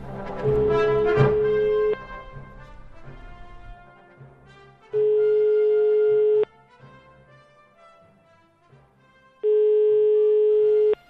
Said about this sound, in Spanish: pincha la llamada, dame el favor.